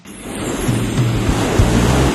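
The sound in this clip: Sea waves in a constant broad wash of surf, loud and steady throughout, with a faint low hum running beneath the noise.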